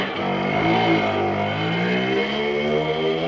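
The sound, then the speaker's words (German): Simson mopeds rattle along a road at about 60 km/h with a steady, loud, buzzing engine drone. Its dense layered harmonics waver only slightly in pitch, and no voices are heard. “damit künftig noch mehr Simsons mit 60 km/h über die Straße knattern.”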